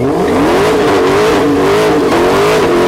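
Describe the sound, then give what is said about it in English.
A Dodge Demon, a single-seat car built like a race car, revs its engine in a loud, continuous roar whose pitch climbs at the start and then wavers up and down through the rest of the rev. “Here is the sound of the Dodge Demon revving its engine.”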